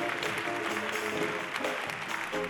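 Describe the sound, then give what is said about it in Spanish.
An audience in a theatre applauds during a concert, a dense, fairly quiet wash of many hands that holds steady for a couple of seconds without talk. “Un aplauso para él.”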